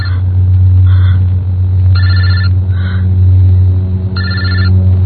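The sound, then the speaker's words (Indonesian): A mobile phone ringtone rings in short, repeating electronic bursts over a loud, steady low rumble. “Jadi ini suara dering handphone siapa?”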